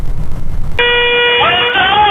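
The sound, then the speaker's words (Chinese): A city bus horn honks continuously on a downtown street in Huangshi: after a short stretch of rough noise, a steady, bright, sustained blare begins and holds unbroken to the end. “一辆公交车持续鸣笛，连闯2个红灯”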